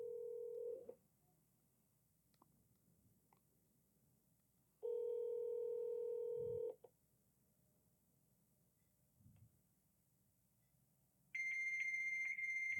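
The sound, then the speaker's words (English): Over a quiet phone line, a fax machine answers a call. Two low, buzzing tones are heard with pauses between them, then a loud, steady, high-pitched answering tone begins. “Oh, it's a fax machine. Leave a fax. Dial in a fax.”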